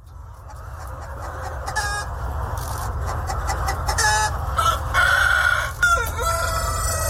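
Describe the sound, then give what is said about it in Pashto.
Vietnamese dragon chickens on a farm, continuous busy clucking with a few loud, drawn-out rooster crows rising over it in the second half. “د ویتنام د چرګانو د ځنګړی نسل ته ډراګن چرګان هم ویل کیږي”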